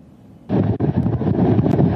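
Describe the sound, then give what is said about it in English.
Strong hurricane wind on a beach at Carolina Beach, North Carolina, roaring loudly against the microphone. It starts abruptly and blows in uneven, buffeting gusts throughout. “The wind is whipping stronger than it has in the last 24 hours. It is unbelievable.”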